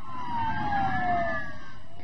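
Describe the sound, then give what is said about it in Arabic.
Sirens of civil defense vehicles setting out from Beirut airport, two wailing tones that slide slowly downward in pitch over a continuous low engine rumble. “من مطار بيروت انطلقت سيارات الدفاع المدني إلى قرى وأحياء طرابلس وعكار في رحلة وداع أبدية.”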